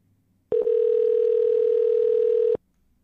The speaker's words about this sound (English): Maybe this is just a bad number. Calling the second number here.